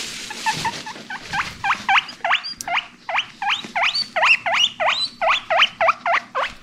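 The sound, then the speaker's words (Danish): A rescue guinea pig squeaking: many rising, whistling wheeks repeat in a quick, steady rhythm, loud and bright, with nothing else heard alongside. “Det var lyden af marsvinet Spaghetti fra Los Angeles Guinea Pig Rescue Center.”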